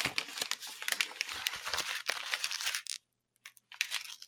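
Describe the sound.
Paper crinkles and tears as an envelope is opened: a busy run of dry rustles and crackles, then a brief silence, then a few more soft rustles.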